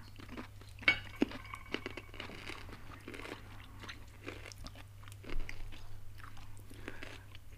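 Crisp, crunchy chewing and biting of a peeled bamboo shoot, a wild mountain vegetable, eaten layer by layer. Several faint crunches fall irregularly over a low, steady hum.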